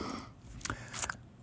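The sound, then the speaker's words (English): Wet licking on a boxed tabletop role-playing game core rulebook gift set: faint, close mouth sounds with a few crisp smacks and clicks over a soft hiss. “This is licking the core rulebook gift set. That's what it sounds like. It sounds delicious.”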